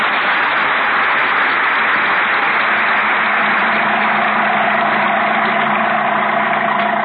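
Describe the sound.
A car engine idles in a steady, even drone with a broad hiss and a low hum that persists throughout, with no clear start-up.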